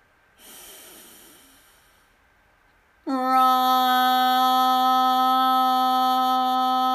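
A person breathing in deeply during a meditation, a soft airy inhale lasting under two seconds, followed after a pause by a loud, sustained, steady resonant tone.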